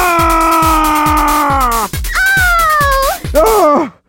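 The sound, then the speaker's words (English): A bird cawing in three drawn-out, wavering cries, the last one short and falling, set over a steady low thumping beat. “Hey, little birdie, are you okay?”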